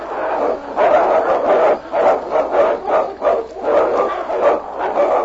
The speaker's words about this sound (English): listen, that's a dog's bark. Can you see? That last one. It is a dog.